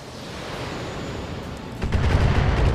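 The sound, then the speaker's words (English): A missile strike hits the Vindicator, a ship in a video game. Steady roaring noise is broken about two-thirds through by a sudden, heavier low rumbling burst that carries on to the end. “Alright, the Vindicator is taking a little bit of a, missile launch hit.”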